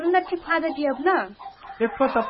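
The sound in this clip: Chickens cluck loudly in a run of several tonal, rising-and-falling calls, with brief pauses between the bursts.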